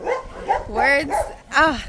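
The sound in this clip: A little puppy in an animal shelter gives a few short, high yips and whiny cries, its pitch bending and wavering from one call to the next.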